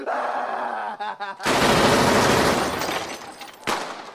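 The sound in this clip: Rapid gunfire aimed at someone: a voice is heard, then a loud, dense burst of shots lasting about two seconds, followed by another sharp burst near the end.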